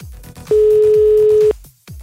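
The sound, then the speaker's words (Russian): A single telephone line tone as a call goes through: one steady, mid-pitched buzz lasting about a second, rising loud above a soft, pulsing low background. “Вот звонок у нас сейчас вроде должен пройти.”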